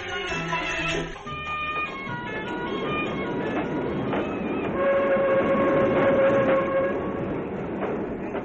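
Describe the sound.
A train pulls into a railway station in an Egyptian radio drama, rumbling steadily while long tonal horn or whistle notes sound above the clatter of the cars. No voices are heard.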